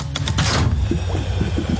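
A pump inflates a Bowser figure in a radio call-in game, a brief rhythmic mechanical pumping effect with a few quick airy strokes followed by a lower chugging hum.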